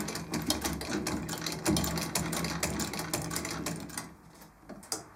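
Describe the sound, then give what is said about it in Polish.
A cobbler's patching sewing machine, a shoemaker's machine that stitches in every direction, running in a fast, steady mechanical rattle of many stitches, fairly quiet, with a brief lull near the end. “No raczej szewc potrzebuje tę maszynę, przede wszystkim łaciarkę. To jest szewska. Wymagana, konieczna. A co to jest? Typowo łaciarka. Że ona szyje we wszystkie strony świata.”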